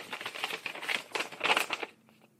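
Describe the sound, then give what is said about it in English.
A paper envelope is ripped open in a run of crackly, uneven tearing bursts lasting about two seconds, then it goes quiet. “Let me rip open this envelope.”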